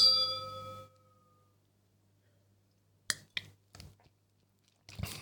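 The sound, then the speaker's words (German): Wine glasses clink in a toast, giving a bright ringing chime with clear overtones that fades within a second. After a pause, a few faint small clicks and handling sounds follow. “natürlich währenddessen auch Weinchen getrunken, so wie jetzt. Cheers.”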